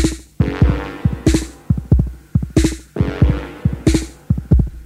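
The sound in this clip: Drum machine beat from a really old Roland unit, made in 1977: a slow, heavy pattern of booming kicks and hissy snare hits repeating evenly, with no voices.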